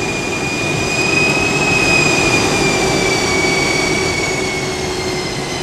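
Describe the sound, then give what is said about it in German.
Steady, loud roar of an airplane landing at an island airport, a constant broad rumble with a high whine that slowly sinks in pitch. “Ui, und schon landen wir.”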